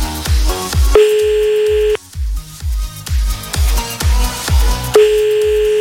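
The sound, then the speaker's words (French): Ringing tone of an outgoing telephone call: two steady, buzzing tone bursts about four seconds apart over a rhythmic music bed with heavy, thumping beats. “c'est parti, on y va, on appelle maintenant, 23h35 sur Fun”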